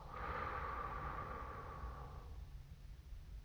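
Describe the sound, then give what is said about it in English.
A deep, slow breath: one long airy rush of about two seconds, faint and alone, that fades into near quiet. “So let's just take a moment to inhale. Exhale.”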